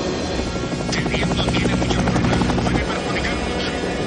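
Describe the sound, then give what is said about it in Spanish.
A helicopter flies overhead, following a car through a city: a loud, steady rotor roar with a rapid throbbing beat that lasts the whole clip. “El helicóptero sigue al coche desde los aires.”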